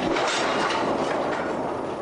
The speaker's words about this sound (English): Late at night at the Tapachula train yard, workers move freight cars into position for the approaching locomotive.